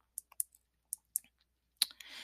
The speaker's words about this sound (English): let me just type it in